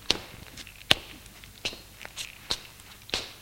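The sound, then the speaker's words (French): Footsteps of a man climbing stairs to the first floor and walking along a corridor, a series of sharp, crisp treads spaced irregularly at a slow walking pace, heard alone. “L'homme monte les escaliers. Il va au premier étage, il voit Adèle dans le couloir. Il s'avance vers elle.”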